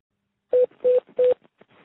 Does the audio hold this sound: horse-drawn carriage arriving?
no